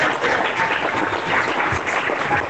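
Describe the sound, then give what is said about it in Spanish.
Applause from a church audience: dense, steady clapping that holds at an even loudness for the whole stretch, with no voices standing out. “Puede glorificar y aplaudir. Aplaude y glorifica.”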